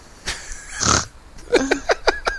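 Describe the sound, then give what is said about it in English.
A person imitates a pig with a loud, pig-like snort: one noisy nasal blast, then a quick run of short, rhythmic grunting snorts. “Snort.”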